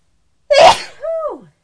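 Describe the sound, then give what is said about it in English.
A single loud human sneeze: a sharp, noisy burst followed by a shorter voiced tail that falls in pitch before it cuts off. “I'm going to sneeze now. Excuse me.”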